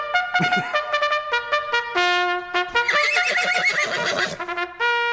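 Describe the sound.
A horse neighs in a sound effect: one long, loud whinny with a shrill, shaking trill that rolls on for several seconds with no voices.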